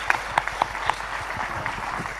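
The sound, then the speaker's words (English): Congregation applause at a church service: a dense, steady wash of clapping fills the whole clip, with a few sharper individual claps standing out early on. “can we just give him one more round of applause and really show how much we appreciate it?”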